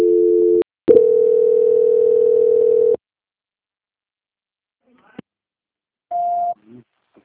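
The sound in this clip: Telephone line tones while a call is being transferred: a short two-note tone, then a steady tone of about two seconds, a long silence with a click, and a brief higher beep.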